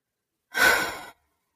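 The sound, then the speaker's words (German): A single deep exhale during a guided relaxation exercise, a soft breathy rush of air that swells quickly and then tapers off over about half a second, heard alone against silence. “So ein Ausatmen, ein Loslassen.”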